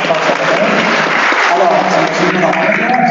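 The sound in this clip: Applause for a staff member at an institute that translates university textbooks for blind students: steady, dense clapping throughout, with a voice speaking over it.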